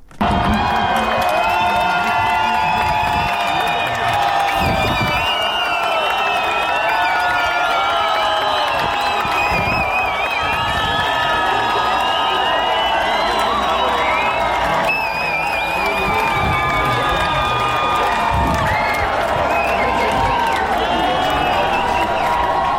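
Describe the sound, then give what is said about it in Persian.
Loud, sustained crowd cheering and whooping as a court verdict is announced, continuous throughout with shouts, whistles and voices blending into one dense roar. “صدایی که شنیدید مشخص بود، صدای لحظه یک حکم اعلام شده و حاضران در محل اعلام حکم شادمانی میکنن”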